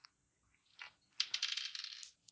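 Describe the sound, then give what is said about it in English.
Dice clatter across a surface during a tabletop horror role-playing game: a brief tap, then a short rattle, followed by a longer run of bright, rapid clicking and tumbling that settles after about a second. No voices. “Let's see, roll the dice, find out what my dex is.”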